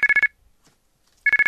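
A mobile phone rings with an incoming call: a quick burst of four bright electronic beeps, a pause of about a second, then another burst of four, loud and alone.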